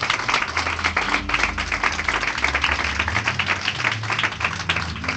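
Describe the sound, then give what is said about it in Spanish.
An audience claps during an evangelical church service, offering applause to God. Many hands make a busy, continuous patter with distinct individual claps standing out, steady in loudness, with a low sustained tone underneath. “dele el aplauso al Señor si quiere hacerlo”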